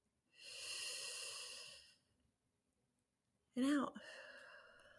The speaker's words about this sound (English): All right, breathe it on in and out. One more.